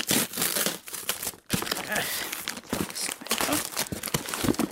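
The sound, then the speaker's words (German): A gift parcel wrapped in glitter paper with a large bow is opened, producing dense crinkling and rustling of the wrapping with sharper tearing bursts throughout. “Wer schickt mir denn ein Paket? Komisch, da steht gar kein Absender drauf. Ich mach's mal auf.”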